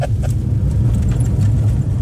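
A Fiat Panda drives over dry terrain, a steady low engine and road rumble with a couple of faint higher clicks near the start.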